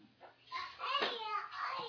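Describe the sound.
Children's voices chatter faintly in the room during a religious lesson, a short stretch of high kid speech with no clear words.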